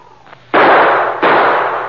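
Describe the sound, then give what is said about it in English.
Two loud gunshot blasts in a rocky mountain standoff, each striking sharply and then trailing into a long, rushing decay. “The shot started an avalanche.”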